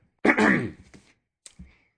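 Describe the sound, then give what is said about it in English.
A single loud, raspy throat clearing, followed by a few softer short throat noises and a faint catch of breath, all alone with no talk. “Oh, the throat clearing, that's terrible. You're going to have to cut that.”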